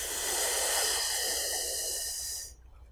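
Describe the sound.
Deep breath drawn in during a breathing exercise: a long, steady, airy hiss lasting over two seconds that cuts off abruptly into near silence as the breath is held.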